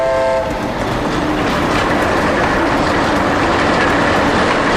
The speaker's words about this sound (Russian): Идет товарный поезд.